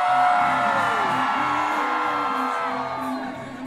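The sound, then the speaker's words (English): A crowd cheers, whoops and yells for a hometown contestant at a Mardi Gras pole-greasing competition, a loud sustained roar of shouting voices that holds steady and eases off slightly near the end. “Let's make some noise and give it up for our hometown boy.”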